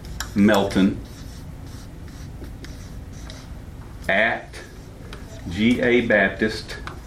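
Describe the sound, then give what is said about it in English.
Marker strokes squeak and scratch on a board as an email address is written, coming in short bursts between stretches of a voice speaking. “I'm going to write her email up here.”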